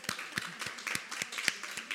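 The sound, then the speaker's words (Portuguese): Sparse audience applause at a speech event: a handful of distinct, sharp claps scattered unevenly across two seconds, fairly faint. “Acho que sim, acho que merecemos mesmo todos este aplauso.”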